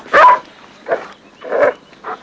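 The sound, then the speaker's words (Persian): A dog barks in short, loud bursts, four sharp yelping barks spaced unevenly apart with no talking in between. “سگ بیچاره”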